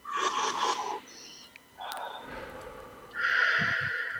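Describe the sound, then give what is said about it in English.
Deep, slow breathing during a guided breathing exercise: a few long, airy breaths in and out, breathy and noisy, fairly soft, with no talk over them. “Nice deep breaths.”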